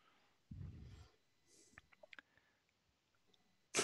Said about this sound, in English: if you could roll 10 six-sided dice, please. 10 d6.